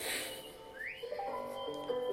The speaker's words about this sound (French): Elle fait pas le piano en même temps. Non, non, elle siffle.